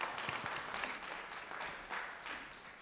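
A church audience applauds to welcome a preacher to the stage, a fairly faint but steady wash of clapping that eases slightly at the end.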